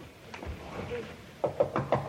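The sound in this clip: Knocking on a door: five quick, crisp raps in a rapid, even burst near the end, preceded by a low, muffled stretch of background sound.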